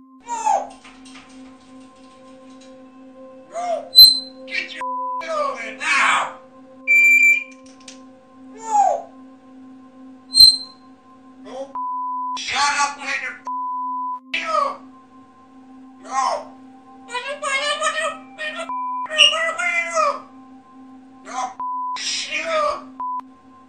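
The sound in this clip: A parrot shifts its voice to mimic two people struggling, swaying side to side as it calls. Many bursts of squawks, wails, groans and whistle-like tones rise and fall over a steady low electronic hum.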